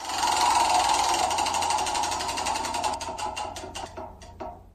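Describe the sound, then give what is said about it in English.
A caribou call played back from a recording found online: a dense, rasping buzz that gradually breaks up into separate pulses, which space out toward the end. “All it says is play the sound. I can only assume that means this. Now, are we sure that's a caribou? Because I pulled that off the internet 6 or 7 years ago.”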